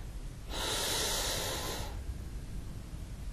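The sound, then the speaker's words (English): A single long breath drawn in during a guided breathing exercise: a steady, soft, breathy hiss of about a second and a half, heard alone with no talk. “Breathe in”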